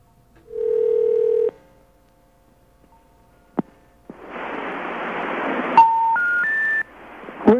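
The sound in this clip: Telephone tones after dialing a number: a steady dial tone lasting about a second, a sharp click, then hissing line static. Three short tones climb in pitch one after another over the static.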